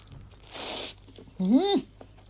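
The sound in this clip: Biting into high-calorie food soaked in thick sauce: one brief, soft crunchy burst, followed by a short voiced hum from the eater.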